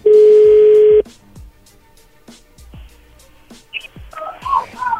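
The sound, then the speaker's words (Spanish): A telephone being redialed: a loud, steady dial tone holds for about a second, then a few faint, short electronic tones follow in a quiet line. “A ver, márcale de nuevo. Sí, ¿qué pasó? Nada, le están marcando de nuevo.”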